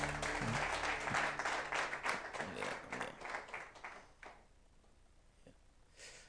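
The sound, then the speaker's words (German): Applause for a worship band at a church service: many hands clap in a dense, lively burst that fades after about four seconds into near silence. “Einen kräftigen Applaus für die Band heute.”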